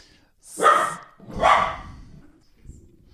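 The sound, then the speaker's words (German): A small dog barks at a tangle of cables: two loud, sharp barks a little under a second apart, then a faint, softer sound afterward. “ich vermute, dass man das jetzt auf der Podcast-Spur hört. Chili verbellt gerade Kabelsalat.”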